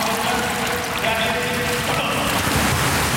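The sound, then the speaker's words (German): Ambience of an indoor swimming pool hall in Schwerin-Lankow: a dense, steady wash of splashing water, loud and unbroken throughout, with no single event standing out. “so hört sich's an in der Schwimmhalle Schwerin-Lankow”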